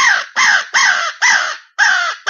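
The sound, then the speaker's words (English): Imitated crow cawing used in turkey hunting: six harsh, loud, evenly spaced caws, each a short raspy burst with a clipped ending, the last one cut off. “and then listen, like a crow fight almost.”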